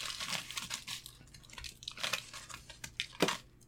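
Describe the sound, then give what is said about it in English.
Pieces are broken off a chocolate orange amid crinkling foil: a quiet, irregular run of many crisp crackles and snapping crunches, with no talking. “Yeah, break me off a piece of that chocolate.”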